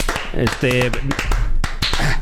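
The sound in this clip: Sharp, scattered hand claps ring out in a radio studio, crisp and uneven, mixed with people talking.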